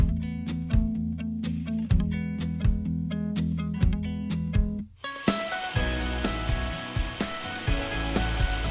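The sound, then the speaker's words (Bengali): Water gushing from a tap at the elementary school in Gachibo village as children fill cups and bottles. A steady, hissing rush starts about halfway through, entering over music that plays throughout. “কেউ cup বা বোতল ভরছে, কেউ বা অতি গরমে শরীর ঠান্ডা করার জন্য কলের নিচে মাথা দিয়ে চুল ধুচ্ছে।”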